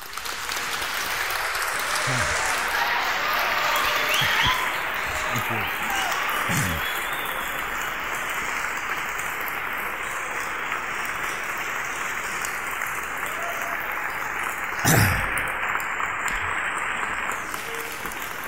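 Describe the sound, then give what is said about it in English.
A crowd applauds at length to welcome Graham Hancock to the stage. Dense, steady clapping carries on for about eighteen seconds and briefly swells louder near the end. “So please join me in giving Graham Hancock a very warm welcome.”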